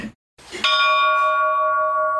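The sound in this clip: A church bell is struck once, giving a bright metallic clang whose clear ringing tones sustain and slowly fade, after a brief burst of noise just before the strike.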